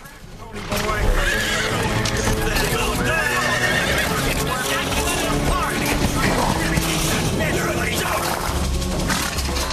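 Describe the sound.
Racehorses neigh from their starting-gate stalls at a track, with several loud whinnies over continuous hoof clatter and shuffling, and indistinct voices in the background.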